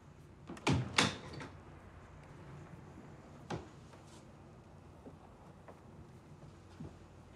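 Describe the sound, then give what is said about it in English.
A bedroom door being shut, heard as two loud, sharp thuds close together near the start. Fainter knocks and a quiet hiss follow. “Suds follows Henry to his room and shuts the door behind her.”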